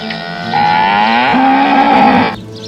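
A cow lets out one long, loud, drawn-out moo on its own, with the pitch stepping up partway through before the call cuts off.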